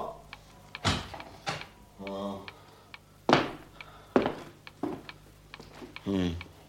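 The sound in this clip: A door being shut, locking someone in: a few heavy, abrupt thuds and knocks amid speech.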